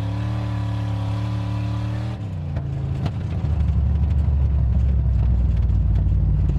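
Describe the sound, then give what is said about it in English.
Racing car engines on a frozen lake during a winter ice race in northern Minnesota: a steady droning engine whine that shifts after a couple of seconds into a louder, lower, rougher rumble that holds to the end. “With some area lakes boasting almost 3 feet of ice during Minnesota's deep freeze of a winter, some take advantage of a uniquely northern Minnesota sport, ice racing.”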